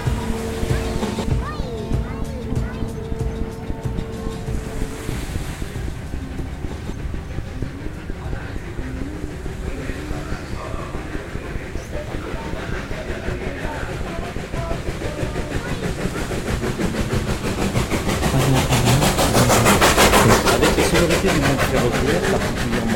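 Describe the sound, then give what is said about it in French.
Ambience of a train station, with continuous rumbling rail and machinery noise, steady tonal hums early on and people talking, and the broad wash of noise swelling louder toward the end. “La gare de Gier apporte une dimension plus directement cinématographique à notre collection de paysages sonores.”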